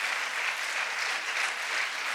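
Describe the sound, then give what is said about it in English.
A church audience claps hands in praise to the Lord during a service, a thick, even wash of many hands beating steadily at constant loudness with no talk over it. “Yeah, give the Lord a hand clap of praise, church.”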